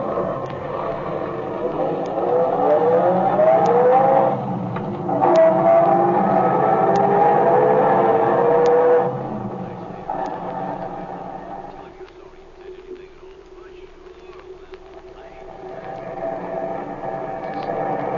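An old, tinny car drives along with a steady engine drone and a whining tone that climbs for a few seconds, then the sound drops to a quieter rumble.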